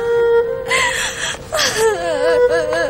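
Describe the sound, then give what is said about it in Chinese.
A woman cries loudly during a family quarrel, her sobbing and wailing wavering up and down in pitch. The crying continues without a break and breathy gasps are mixed in. “二妹子，别哭了”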